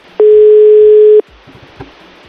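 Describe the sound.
A telephone dial tone sounds while a call is being placed: a loud, steady hum at a single pitch lasting about a second. It stops abruptly into faint line hiss with a few soft clicks.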